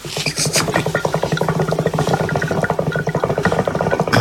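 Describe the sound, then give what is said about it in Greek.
A hookah bubbles steadily in a fast, continuous gurgle of closely spaced pulses that stays fairly loud throughout, with no voices. “Ο ήχος είναι από εμάς, ήταν αυτός ο ήχος. Ναι, ο ήχος αυτός είναι από Αργιλέ.”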